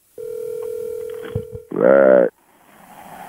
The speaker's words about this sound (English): Let's try calling her. Okay, what's her number?